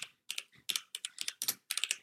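Typing on a laptop keyboard: quick, crisp key clicks in irregular short bursts, fairly faint and with no voices.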